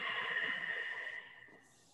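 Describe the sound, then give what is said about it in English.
An ocean-like breath exhaled through the nose with a constricted throat during a functional fitness breathing drill, a soft, airy, steady hiss that tapers off after about a second. “Audibly ocean-like. Inhale through the nose. Constrict the back of the throat. Exhale back out the nose.”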